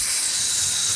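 Meat sizzling on a charcoal grill gives a steady, bright hiss that holds at an even level for about one second, with no voices.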